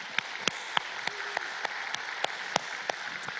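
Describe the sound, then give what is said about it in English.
Audience applause in a room, a faint continuous wash of clapping punctuated by evenly spaced, louder single claps in a steady rhythm. “If you're in the room, would you please give our online television audience a big hand?”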